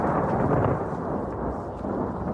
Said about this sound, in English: There was an actual thunderstorm that had been recorded that was incorporated into the song.